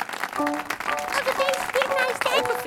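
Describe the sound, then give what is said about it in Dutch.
A crowd applauds with a fast patter of clapping hands, mixed with voices that rise above it in brief cries. “Het volk zo verbaasd deden de handen op elkaar.”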